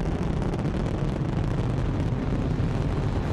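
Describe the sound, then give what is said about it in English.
A Titan Centaur rocket lifts off carrying a Voyager spacecraft, giving a continuous, loud, dense roaring rumble with crackling texture that holds steady throughout, with no voices. “We have liftoff of the Titan Centaur carrying the first of two Voyager spacecraft to extend man's senses farther into the solar system than ever before.”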